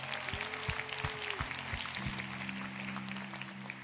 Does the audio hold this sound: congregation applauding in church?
yes